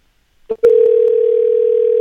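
Telephone dial tone on a hotel's extension dialing line: a couple of short clicks, then a steady, loud, unbroken tone that holds to the end.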